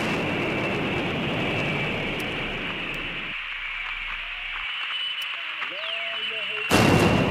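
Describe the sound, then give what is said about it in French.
Explosions destroying the giant Bamiyan Buddha statues carved into the mountainside of Afghanistan's Bamiyan valley: a sustained, dense roar gives way to a quieter stretch, then a sudden loud burst near the end. “je peux vous faire entendre le bruit que ça fait quand ils les ont détruits, les Bouddhas.”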